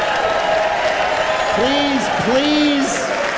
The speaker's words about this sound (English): please do not clap. The vibrations can damage any Cybertruck in the parking lot.